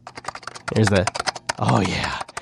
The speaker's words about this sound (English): I'm opening up the box right now, and it comes in individual keyboard pieces